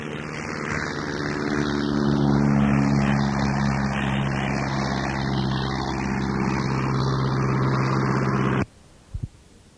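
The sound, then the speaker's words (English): An aircraft engine drones steadily during takeoff, a loud roar with a sustained humming tone that holds for about nine seconds. It then cuts off abruptly, followed by a brief faint thump. “They have one on takeoff.”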